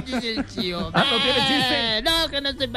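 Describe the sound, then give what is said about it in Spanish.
Goat bleating in loud, quavering calls that run almost continuously, wavering up and down in pitch as several bleats follow one another. “El chivo, es un chivo”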